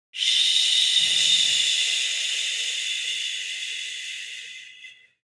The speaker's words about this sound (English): And this time, as we exhale through the teeth, letting it out like a parachute.